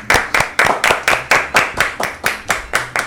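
Rhythmic hand clapping in a radio studio, about a dozen sharp, evenly spaced claps at a steady moderate pace, fairly loud and without voices.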